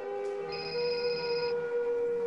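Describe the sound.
A mobile phone rings with a steady electronic tone for about two seconds, and a brighter high tone joins in briefly partway through.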